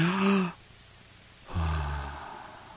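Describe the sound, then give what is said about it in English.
A voice imitates a dying person's death rattle and last breath. A short voiced groan comes first, then a pause, then a longer low, rough rattling exhale that slowly fades. “the hospice nurses would universally report that if you heard the death rattle and if you heard the last breath of somebody, it sounded something like this.”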